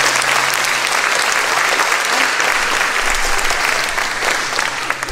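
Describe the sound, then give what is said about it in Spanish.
Loud, steady applause from a crowd, a dense wash of clapping that runs unbroken through the whole clip with no talk. “Mira, vaya, aplauso.”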